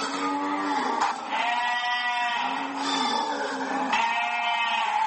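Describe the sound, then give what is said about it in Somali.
Livestock bleating at a livestock quarantine station in Djibouti: sheep-like bleats follow one another in a steady, loud chorus, overlapping with no pause. “marka xoolaha laga soo saaro gegada amba saylada xoolaha waxaa loo soo gudbiyaa xarunta dabaaxadda lagu qalo xoolaha ee ku taalla magaalada jabuuti”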